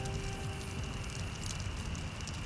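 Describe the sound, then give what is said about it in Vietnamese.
An old shirt burns with a faint, steady crackle and soft hiss of flames. The quiet popping runs continuously, with no voices. “em đốt cái gì thế? Em đốt chiếc áo cũ anh ạ.”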